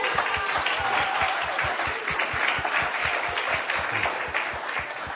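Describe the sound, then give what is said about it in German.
A church audience applauds to greet online listeners during a sermon, with even, sustained clapping throughout and a faint voice beneath it. “You can give them a hand.”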